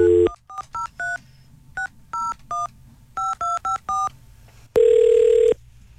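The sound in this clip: Touch-tone dialing of a ten-digit phone number for a radio station call: a brief opening tone, then crisp beeps grouped three, three and four, followed by one longer, steady, louder tone.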